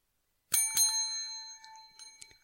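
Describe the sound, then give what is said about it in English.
Two quick dings of a bicycle bell, struck close together, then a bright metallic ring that decays over about a second, with a few faint small taps after it. “You made a face when I gave you two bells as if you didn't want two bells.”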